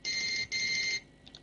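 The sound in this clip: A mobile phone rings during a religious lesson, giving two long, high electronic ring bursts with a brief gap between them. Two faint, short blips follow after a pause, and there is no talk.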